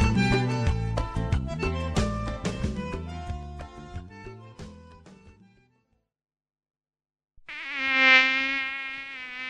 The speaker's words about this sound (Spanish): El mosquito que transmite el dengue vive en el agua clara, que parece limpia, y se junta en las gomas,